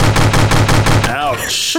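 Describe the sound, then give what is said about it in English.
Firing squad gunfire sound effect: a rapid, evenly spaced volley of loud shots lasting about a second, then a wavering tonal sound as it trails off. “I got to give you the firing squad, my friend.”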